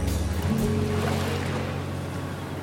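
Seaside waves make a steady, rushing wash with a low hum beneath it, holding a fairly even level throughout.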